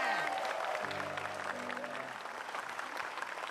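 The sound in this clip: An audience breaks into dense, even applause that holds for several seconds at a fairly soft level, with a voice briefly heard over the clapping.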